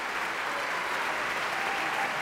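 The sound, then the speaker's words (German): Theatre audience applauding at a curtain call, an extra round for the singer who played Pedrillo: dense, steady clapping from many hands that holds an even, full level throughout, with no voices rising above it. “Jetzt wende ich mich mal nach rechts. Das ist der extra Applaus für Michael Laurenz. Der hat den Pedrillo gegeben.”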